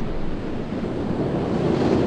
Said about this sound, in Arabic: لكن الطقس الآن يتغير إلى الأسوأ. اشتدت الرياح واضطرب البحر كثيرا